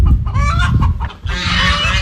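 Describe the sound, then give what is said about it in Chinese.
Chickens cluck loudly in a poultry pen on a farm cooperative in Miyun, Beijing: a dense, continuous overlap of busy calls with no pause. “走进密云区密园小农合作社的如新农场，鸡鸣鹅叫声此起彼伏”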